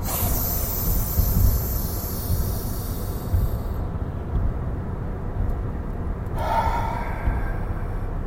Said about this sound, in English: Last one, really deep. Hold it at the top and then let it out.